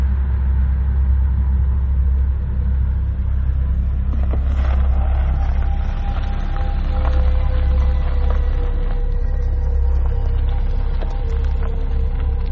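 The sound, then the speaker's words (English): A Hyundai Sonata pulls over onto a dirt road in Texas. Its engine gives a steady, low rumble that stays even throughout, with no voices. “Hold on. Let me pull over in this dirt road over here.”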